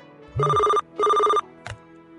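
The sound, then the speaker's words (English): A telephone rings in a community radio station studio: two even, bright ring bursts with a short gap between them, then a brief click, with no talk. “began to prepare for other activities within the station when the phone rang.”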